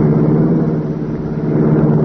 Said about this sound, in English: The race car roared into life.